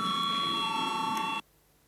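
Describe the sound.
A parliament voting bell rings as one steady, continuous electric tone for about a second and a half, then cuts off abruptly into silence.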